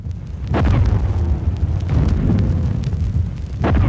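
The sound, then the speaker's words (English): Archive recording of an artillery barrage at El Alamein, a continuous heavy rumble of overlapping blasts with a few sharper bursts standing out, loud and dense throughout. “as you can hear from this archive recording, the violence of the artillery barrage was devastating.”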